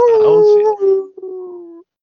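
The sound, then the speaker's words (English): A single drawn-out coyote howl, loud and alone, with a clear tone sliding gently downward and a brief break midway before it trails off. “No, that was actually that was a coyote, right?”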